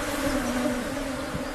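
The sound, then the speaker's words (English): Honey bees buzz at their hive among honey boxes, a steady, continuous droning hum with no pauses and no voices. “thanks to these beautiful bees. Look at them hanging. So cool.”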